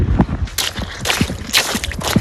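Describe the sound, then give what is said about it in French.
Wet shoes squelch as feet move through water, giving a few soft, squishy bursts with sloshing in between, loud and irregular. “les pieds dans l'eau. J'ai mes chaussures qui font pouic-pouic.”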